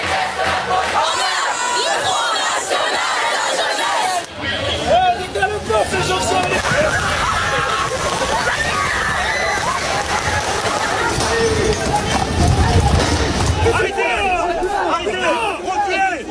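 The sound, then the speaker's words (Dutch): Street protesters in France fill the air with a dense, continuous roar of shouting, chanting and babbling voices. The sound briefly dips around the fourth second, then stays loud and steady to the end. “Ouderwets protest, zoals de Fransen dat kunnen. Maar de politie grijpt ook heel hard in. En zo klonk het op straat in Frankrijk deze week.”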